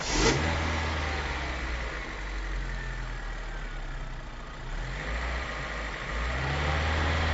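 A car engine runs in good working order with a loud, steady low rumble that dips briefly midway, then picks up again, with no talk over it.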